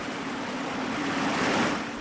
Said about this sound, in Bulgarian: Стигнахме най-после. Ето го, водопада.